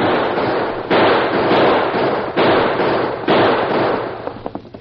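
Gunshots fired by riders charging in on a shack: several loud, sharp blasts over a steady, dense noisy din, with a scatter of smaller pops at the close.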